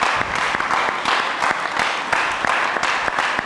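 Applause from a church audience during a worship service, a dense, steady wash of many hands clapping at once, holding an even loudness throughout.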